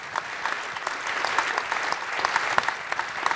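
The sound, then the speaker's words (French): Warm applause from an audience at the close of a conference's 24th edition: a dense, steady wash of many hands clapping at an even level throughout, with no voices on top. “Premièrement, pour féliciter, remercier et applaudir chaleureusement Benoît et Magali”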